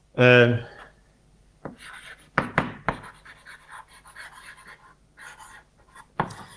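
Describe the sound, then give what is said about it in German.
Writing during a logic lecture, with short scratchy strokes in an irregular rhythm, faint and patchy between a few sharper bursts. “ich schreibe mal dahinter wegen Negation”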